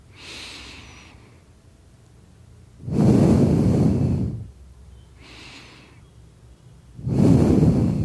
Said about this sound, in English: Take a breath. Take a deep breath. Like go up to 4 seconds and go down 4 seconds, like just like that.